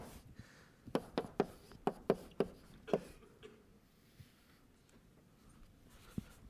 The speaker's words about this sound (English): And I'll just write this out and explain where these numbers came from.